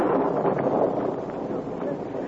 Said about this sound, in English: The rain, whipped by the wind, beat hard against the face of a slender girl who fought her way toward the small one-room telegraph office.